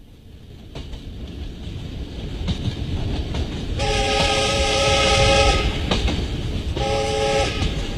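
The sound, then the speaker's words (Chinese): A southbound train to Yunnan rolls along the rails with a steady, loud rumble that builds gradually. Two long horn blasts sound over it, the first longer than the second. “三天以后，803、沈西、梁达等一行押着于昌寿乘上南去的列车奔赴云南。”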